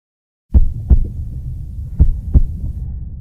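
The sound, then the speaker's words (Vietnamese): A bus driver's heartbeat thumps low and muffled in two lub-dub pairs separated by a pause, over a constant deep hum. “Đây là âm thanh của nhịp tim từ một người tài xế xe bus.”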